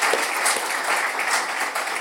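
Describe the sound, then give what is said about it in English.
Audience applause after a panel discussion, just before a Q&A session: dense, continuous clapping, loud and even throughout the short clip. “I think we need to give these guys a round of applause for their honesty and their openness, Jenny, Chris and Jill.”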